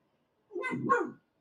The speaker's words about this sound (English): that's my dog Aiden